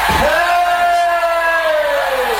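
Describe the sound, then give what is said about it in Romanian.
A person in a valley shouts one long, drawn-out call, a loud, sustained voiced tone held at a fairly steady pitch for about two seconds without a break. “Dar strigă cineva din vale. Poate că s-a rătăcit.”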